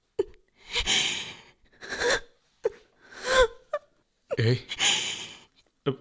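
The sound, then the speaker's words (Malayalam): A woman crying, with a series of sobbing gasps, shaky whimpers and breathy wails in uneven bursts separated by short pauses, fairly quiet overall. “നിങ്ങൾ എന്തിനു കരയുന്നു?”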